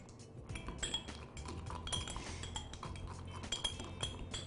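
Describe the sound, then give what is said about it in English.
Many light metallic clinks and scrapes of a spoon against a container as dehydrated, crunched-up apples are stirred into honey to coat them; the clinking runs steadily and irregularly throughout with no talking. “We're going to put that in there. Give it all a stir, get it all coated with the honey.”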